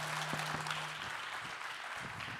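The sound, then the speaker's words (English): A church audience applauds in a faint, steady patter of clapping hands that continues evenly throughout. “And so I want to hear all of the amens and hand clappings and yeah, come ons that y'all got tonight.”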